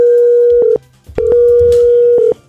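Telephone line tones as a call is dialed out, a steady mid-pitched electronic tone sounding in two long stretches separated by a short break, loud and alone without voices.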